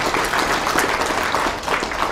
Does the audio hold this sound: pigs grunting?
no